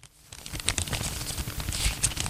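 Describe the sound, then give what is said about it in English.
A waxy paper banknote is crumpled by hand, giving a soft, irregular crinkling and crackling that builds slightly over the seconds, fairly faint and with no voices. “This isn't just a waxy piece of paper with a picture of Queen Elizabeth on it.”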